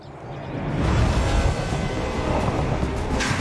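A train rolls along rails carrying a bulldozer toward Fairbanks. It makes a steady, continuous low rumble with grinding wheel noise that holds at an even loudness throughout, with no voices.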